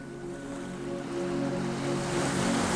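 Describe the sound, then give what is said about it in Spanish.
Calm sea waves wash gently onto a beach in a steady, soft, hissing surge that swells slightly louder toward the end, with no voices. “La marea está tranquila. Las olas llegan con delicadeza y se retiran sin prisa.”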